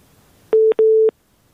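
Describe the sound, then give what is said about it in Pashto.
Two steady electronic tone bursts on a connected phone line with no voice on it, a short one followed by a slightly longer one, each beginning and ending with a click, then quiet line hiss. “بلې اړیکه اشته خو غږ نه راځي. بلې زبنګ غږ اورئ تاسو؟ هلو، له بده مرغه چې اړیکه یې اوس پرې شوله.”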